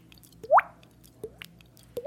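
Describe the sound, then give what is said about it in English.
A voice imitates a water drip by tapping the cheek while blowing out air, giving three hollow, rising plinks: a loud one near the start, then two softer ones spaced evenly apart. “old man named Snipes taught me how to do a water drip. You were just tapping your cheek. Yeah. And it's tapping on my cheek, and I'm blowing the water out as if you had just brushed your teeth and it's spitting”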